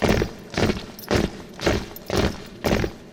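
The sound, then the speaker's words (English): The King's Own Grenadier Guards' marching feet sound as a steady rhythm of heavy crunching stamps, about six even beats, each a broad thud separated by brief gaps. “the marching feet are provided by the King's Own Grenadier Guards. So it's up, two, three, four, and let's hear those marching feet, please.”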